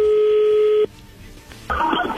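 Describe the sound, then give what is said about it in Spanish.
Telephone dialing tones as a number is dialed: a loud steady two-pitch tone holds for under a second, cuts to near silence, then a brighter, noisier burst of tones returns. “vamos a marcarle en este momento”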